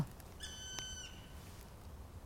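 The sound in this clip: A black woodpecker calling: one drawn-out, clear, high tone with bright overtones, held for about half a second, faint and alone, with a brief click in the middle.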